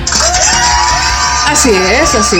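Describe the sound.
Crowd shouting and cheering sound effect: loud, continuous whoops and yells whose pitch swoops up and down, a dense mass of voices sustained throughout without a break.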